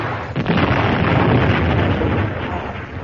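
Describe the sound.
An explosion from accurate shooting near a field, a sudden loud blast that swells into a sustained, rumbling roar lasting a few seconds before easing slightly, with no voices.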